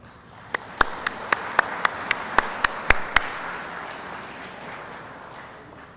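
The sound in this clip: An audience applauds to welcome a company CEO as a speaker at a broadcasters' clinic. Several sharp, distinct claps ring out over a softer wash of clapping that gradually fades away.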